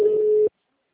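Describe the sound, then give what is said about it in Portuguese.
A telephone busy signal sounds as one steady, mid-pitched tone. It is loud, lasts about half a second with nothing else, and then cuts off into silence. “O número está ocupado.”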